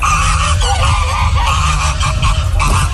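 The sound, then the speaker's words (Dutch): Many geese, white domestic and Canada geese, honk in a park in Vlaardingen with loud, dense, overlapping calls that continue without a break. “En in een park in Vlaardingen heerst een ganzenplaag. Er zitten er 42 witte ganzen en ook nog eens 130 Canadese ganzen in de buurt. En die ganzen die zijn agressief”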